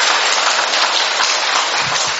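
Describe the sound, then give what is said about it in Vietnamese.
An audience applauding in thanks during a church service: a dense, even wash of clapping that holds steady throughout, bright and loud with no voices above it. “Một tràng pháo tay thật lớn để chúng ta tạ ơn Chúa, thưa anh chị em.”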